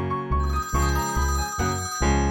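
Telephone-like ringing, imitated as if by a parrot, repeats in a steady rhythmic pattern of short bright bursts over low, continuous musical backing.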